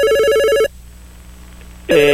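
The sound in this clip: An electronic telephone ringtone signals an incoming call: a loud, sustained harmonic tone burst, a pause of over a second, then a second burst starting.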